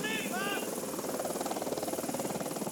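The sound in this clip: Helicopter rotor chopping in a movie scene: a rapid, steady thudding beat with an engine whine through the whole clip, and a voice briefly at the start.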